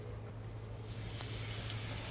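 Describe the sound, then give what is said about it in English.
Faint, steady sizzling as pancake batter hits an oiled pan over medium heat, a soft, even hiss that continues throughout with a small crackle near the middle. “Move the pan around just to get the oil all over the pan. Now I'm going to bring down the heat to medium heat. Okay, I'm going to put the batter right on top of the pan.”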